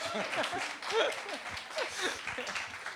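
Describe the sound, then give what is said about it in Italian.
Applause from an audience at an Italian cultural event welcoming a guest speaker: a steady, soft clatter of many hands clapping, with people talking over it throughout. “Applauso, a lei l'applauso”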